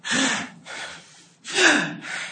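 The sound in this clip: A voice imitates the loud, snake-like hissing breaths of people blowing hard during breath-awareness meditation: four harsh, airy bursts in quick succession.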